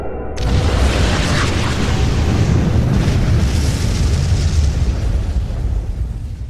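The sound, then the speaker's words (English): A planetoid exploding amid an alien fleet in a sci-fi space battle: a sudden loud blast that spreads into a dense, sustained roaring rumble lasting several seconds without letting up. “The planetoid Megiddo has reached the alien fleet and exploded. Plasma expansion wave is approaching at speed standard by 14.”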